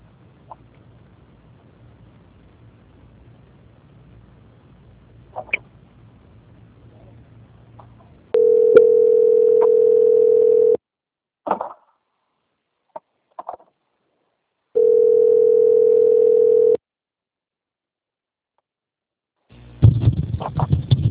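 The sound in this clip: A telephone call-transfer tone: two long, level mid-pitched beeps of about two seconds each, separated by silence and a few short clicks, after a faint low hum and before a burst of noise at the end.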